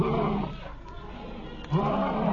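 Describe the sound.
A lion roars with a deep, rough rumble, fading briefly before a second low surge of roaring rises again.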